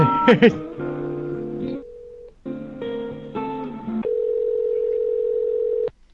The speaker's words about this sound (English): Get a beep.